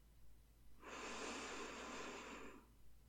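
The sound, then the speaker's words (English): A slow, deep in-breath: a single soft, airy inhale that swells and holds for about two seconds before fading out. “Try to match me then. Breathe in.”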